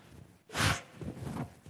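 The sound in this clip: A person blowing their nose: one loud, rough burst of air through the nose lasting about a quarter second, followed by quieter rustling noise.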